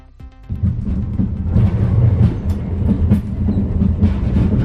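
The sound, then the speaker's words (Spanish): Rattling clatter of an Alvia train running on the rails, felt by passengers on board: a loud, steady rumble full of irregular knocks and clacks that swells in after a brief quieter opening. “el traqueteo que nos lleva de nuevo al siglo pasado. Otro ejemplo más de que no tenemos todavía un tren del siglo XXI.”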